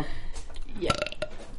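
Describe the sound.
A burp rumbles out amid people talking, rough and throaty, with chatter continuing around it.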